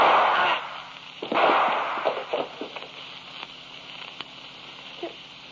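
A gunshot sound effect in an old radio murder drama: one sharp, loud crack followed by a few fading crackles and pops that die away into quiet.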